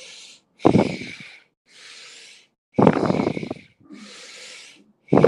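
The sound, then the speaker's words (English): Steady breathing in and out through the nose, airy and hissing, alternating between fuller, louder breaths and softer, quieter ones in an even, unhurried rhythm. “Just through the nose, inhaling, exhaling, belly rises and falls. Just find a steady pace.”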